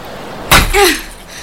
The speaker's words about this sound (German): Und dann nehmen wir den Spaten und hauen die Flasche in der Tüte kaputt.